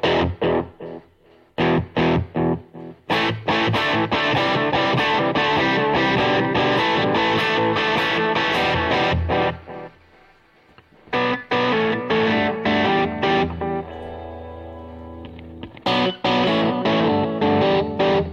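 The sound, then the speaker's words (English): Electric guitar played through an Echoplex echo effect, with distorted chords struck in loud, rhythmic bursts. The playing breaks off briefly, then resumes with sustained, echoing tones, and no voices are heard. “I've got an Echoplex, which sounds great.”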